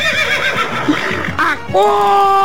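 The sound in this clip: A horse neighs loudly, a quavering, shaking whinny that breaks off and returns as a steadier held cry.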